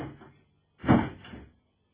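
A door being opened in a home, heard as one short muffled burst of knocking and rattling that follows a faint earlier scrape, with no voices.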